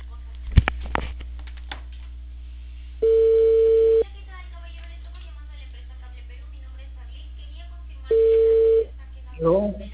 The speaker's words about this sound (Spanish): voy a llamarle ya